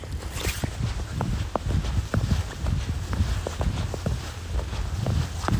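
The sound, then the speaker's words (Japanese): Footsteps crunch through freshly fallen snow on an evening walk in a park, a steady run of many soft, regular steps over a constant low background. “新雪の音という音が聞こえるでしょうかね”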